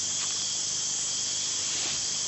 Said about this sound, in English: Alien Empire, which demonstrates its firing ability, slowed down a bit so that you can understand it. Few creatures will risk annoying a bombardier beetle.